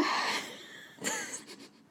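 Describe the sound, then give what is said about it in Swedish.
A sharp inhale just before a sneeze: a hissy, breathy intake of air, then a few short, wheezy catches of breath that fade out. “Jag var så nära på att nysa. Jag var andades in så här som man gör innan man ska nysa.”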